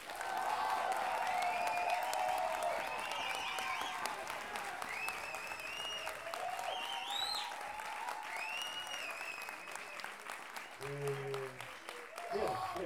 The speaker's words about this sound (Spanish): Porque si no, vamos a tener que aplicar los aplausos de la semana pasada y el estilo rock.